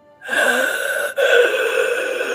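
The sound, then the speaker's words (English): A voice imitates a dying person's wheezing death rattle, a long, loud, raspy breath with a steady buzzing tone that breaks off briefly once midway and then continues. “She's kind of wheezing in her death, like her, that death rattle that a chest gets when they wheeze.”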